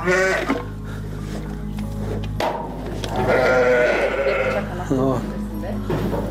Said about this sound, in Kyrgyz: Жүйдүн беш көрүк айылындагы Бакыт Асымбаевдин чарбасында арашан асыл тукумундагы 53 акты кой бар